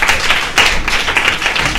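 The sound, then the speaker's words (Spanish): Applause for sixth-grade pupils in a school library: a short, fairly loud burst of many hands clapping, uneven and choppy, with sharper claps standing out now and then. “Bueno, un aplauso también a los chicos del sexto, que no le estamos aplaudiendo a los chicos del sexto.”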